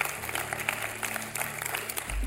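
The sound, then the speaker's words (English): Applause from a church audience at the close of a service, a steady, fairly faint wash of many hands clapping without pause. “Can y'all give them a round of applause, man? That's amazing.”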